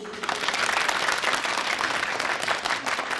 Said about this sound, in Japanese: 今回その第一弾としてサウンドツールとして持っていると便利な少人数の監修のガヤ拍手をお届けできることになりました。